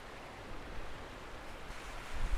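Ocean waves at the shore as the tide comes in: a steady, rushing wash of surf that swells slightly louder toward the end.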